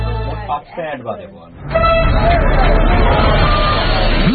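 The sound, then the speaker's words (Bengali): Dense crowd hubbub from a large gathering of people all talking at once, building after a quieter opening into a steady, loud wall of overlapping voices with no single speaker standing out. “এত মানুষের ভিড়ে রিয়াকে খুঁজে বের করা অসম্ভব”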